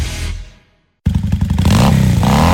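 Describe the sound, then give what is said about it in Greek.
Motorcycle engine revving: a loud earlier sound fades to a short silence, then the engine bursts in with a rapid throbbing rev that stays loud to the end. “Αν σας αρέσει αυτός ο ήχος και αγαπάτε τις μοτοσικλέτες”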